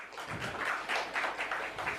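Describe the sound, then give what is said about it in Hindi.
Audience applause for a trophy presentation to a winning team on stage: a fairly soft, steady patter of many hands clapping. “मोहतरम Subhash Khanna sir के लिए जोरदार तालियां होनी चाहिए।”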